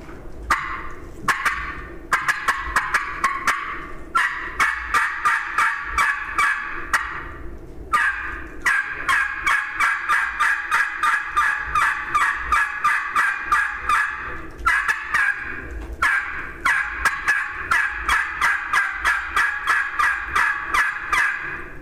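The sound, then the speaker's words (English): A turkey tube call is worked aggressively to imitate turkey gobbles, producing many rapid, raspy, mid-pitched yelping notes in loud runs broken by a few short pauses. “So I'll run a tube call and I'll get kind of aggressive and then I'll stop and listen.”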